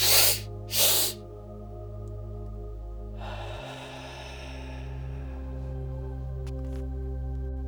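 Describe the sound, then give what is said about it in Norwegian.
A slow, complete exhale of breath during a guided breathing exercise, heard as a soft breathy hiss that swells and fades over a steady, sustained musical drone, after two short breathy bursts at the start. “Hold et øyeblikk og pust rolig ut. Helt ut. Det høres sånn ut.”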